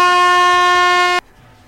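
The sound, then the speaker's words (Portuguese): A single loud air horn blast: a steady, bright harmonic tone held for just over a second, then cut off abruptly, leaving near silence. “acho que merece a buzina depois dessa”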